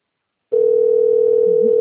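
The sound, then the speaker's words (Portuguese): A telephone dial tone sounds before a call to a customer service line, starting abruptly after a brief silence and holding one steady, unbroken pitch to the end. “Vou ligar no atende.”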